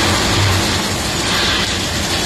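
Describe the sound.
Heavy rain falling in La Rioja makes a loud, unbroken, dense rushing hiss. It holds nearly constant through the short clip without distinct drops or voices.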